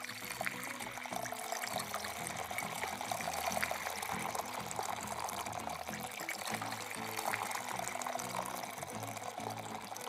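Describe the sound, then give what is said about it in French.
Water poured into stone jars for a feast, a continuous splashing and gurgling fill that keeps a fairly steady level for about ten seconds. “Remplissez ces jarres avec de l'eau.”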